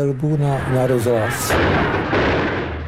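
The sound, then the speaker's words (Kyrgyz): Soldiers fire guns toward a radio building where crowds have gathered behind barricades, the shots sounding as harsh, noisy bursts that follow a raised, tonal voice at the start. “Аскерлер радио имаратына эртең менен келишти, бирок имаратты коргоо үчүн ал жакта көп кишилер топтолуп калышкан эле. Алар тосмолорду коюп, каршылык көрсөтүүгө аракет кылышты. Аскерлер имаратка карай ок атышты.”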